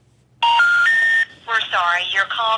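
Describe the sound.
A phone call placed to a number that fails gives three short beeps stepping upward in pitch, followed by a recorded voice speaking.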